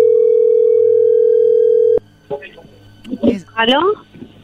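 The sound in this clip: A telephone dial tone hums as a single steady pitch for about two seconds while the phone is redialed, then stops abruptly as voices begin talking.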